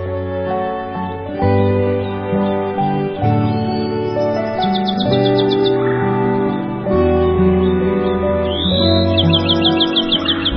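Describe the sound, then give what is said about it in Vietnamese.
Songbirds break into short, rapid, high chirping trills twice, once near the middle and again near the end, over loud, full melodic music. “Các loài chim quý cất giọng hót líu lo, thánh thót, hát cho mỏm đá nghe những bài hát hay nhất của loài chim.”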